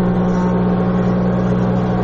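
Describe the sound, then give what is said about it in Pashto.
Woodworking machines cut and plane wood in a furniture workshop, making a loud, steady, unbroken drone with a strong low hum that runs throughout. “څوک په ماشینونو لرګي رکوي، څوک په همدې ماشینونو لوړې ژورې هواروي”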